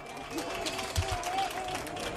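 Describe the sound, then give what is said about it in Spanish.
Quiet, continuous applause from an audience, a soft wash of many hands with a faint voice briefly audible above it. “Un aplauso para Isea.”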